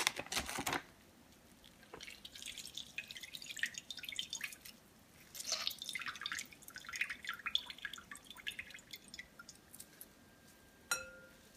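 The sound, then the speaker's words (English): Water drips and squishes as thawed spinach is squeezed out by hand for a dip: a quiet, irregular patter of many small drips with a few louder squelches, and no talk. “I can't tell you how important this is because if you don't squeeze out all the water, you're going to have a very runny dip.”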